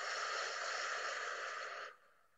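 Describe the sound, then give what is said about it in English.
A long, steady exhale in a guided breathing exercise, a soft, even breathy rush lasting nearly two seconds before it cuts off. “So breathe in. Hold. And breathe out.”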